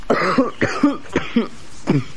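A short fit of harsh, hacking coughs, several bursts in quick succession, loud and with nothing else around them.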